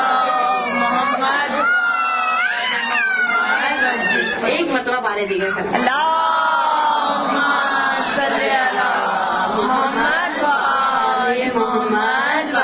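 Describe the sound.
An audience at a religious gathering recites salawat in unison, many voices blending into a loud, continuous chant that rises and falls in a rolling rhythm.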